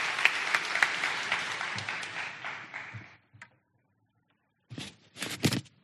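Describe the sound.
A church audience applauds to welcome a guest speaker on Palm Sunday with brisk, many-handed clapping that tapers off after about three seconds. A short silence follows, then a man begins speaking.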